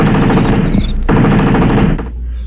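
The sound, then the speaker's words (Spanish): A burst of machine gun fire from a guard shooting at a visitor: two long, loud, rapid rattling volleys with a brief break between them. “El guardia disparó la ráfaga sobre el visitante, pero no pasó nada.”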